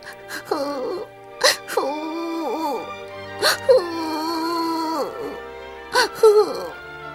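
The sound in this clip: A voice imitates a child crying in a children's story, with several drawn-out wailing sobs whose pitch wavers and falls, broken by sharp, catching breaths.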